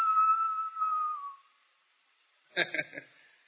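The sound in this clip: A person whistles to imitate a boiling kettle, holding a steady, high tone that slides slightly lower before stopping. A voice briefly speaks afterward.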